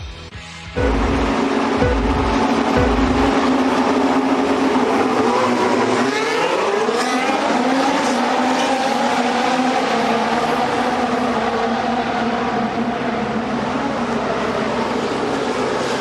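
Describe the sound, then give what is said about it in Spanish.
Formula 1 race car engines at the Austrian Grand Prix, a loud, continuous high-pitched roar with a whining tone that sweeps upward partway through. “Caballeros, se enciendan sus motores.”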